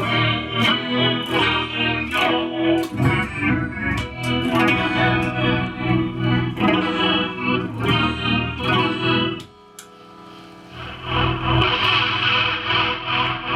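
Electric guitar played through a large board of around a hundred effects pedals, loud dense chords with chorus, echo and distortion. The playing drops briefly near the end, then a bright shimmering tone swells back in.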